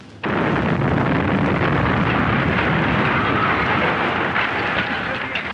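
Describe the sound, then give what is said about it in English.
Bomb blast on a street in Belfast, bursting in with a sudden loud onset and rolling into a dense, sustained roar of noise and rumble that stays heavy for several seconds. “A street in Belfast, another bomb.”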